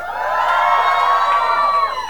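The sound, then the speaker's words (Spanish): A crowd of young worshippers at a church youth revival camp in Tulare, California gives a loud, sustained shout of joy, many voices cheering and whooping together at a steady high level throughout. “¿cuántos están gozando? A ver, den un grito de júbilo,”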